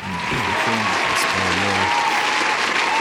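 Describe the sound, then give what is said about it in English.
A round of applause plays as a sound effect: a dense, steady roar of clapping that holds at an even loudness from start to end. “let me hit the round of applause”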